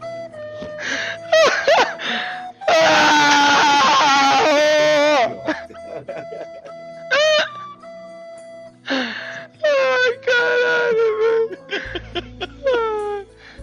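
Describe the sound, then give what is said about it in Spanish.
Neymar Jr., the PSG footballer, crying after losing $1,000,000 at online poker on a live Twitch stream: loud, strained wails and gasps of wavering pitch, mixed with bursts of laughter. “Ese al que escuchas llorar primero y reír después es Neymar Jr. Este vídeo del jugador del PSG se hizo viral hace algunos días después de perder en directo en su canal de Twitch $1,000,000 jugando al póker a través de internet.”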